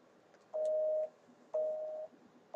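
Telephone line tones sound on a call to the White House. Two steady half-second beeps at one mid pitch are separated by an equal pause, and a third beep begins at the very end. All are fairly faint.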